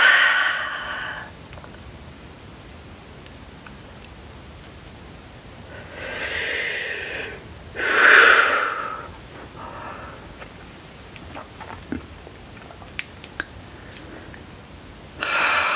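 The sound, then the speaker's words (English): Slow, deep breaths during a guided forgiveness and healing meditation come as a few soft, airy swells separated by long quiet stretches, with faint scattered clicks toward the end. “Breath.”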